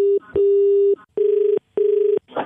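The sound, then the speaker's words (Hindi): Electronic phone keypad tones from a phone in a pocket with its buttons pressed repeatedly: a short beep, then three longer steady mid-pitched tones, the last two faintly pulsing, separated by brief gaps and followed by a short noisy rustle. “मेरी जेब में phone रखा होगा, वो button दबा होगा बार बार।”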